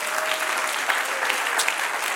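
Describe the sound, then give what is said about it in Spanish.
A church audience applauds during a Spanish-language worship service, a steady, dense wash of clapping that stays even in loudness throughout. “Dale otro aplauso al Señor.”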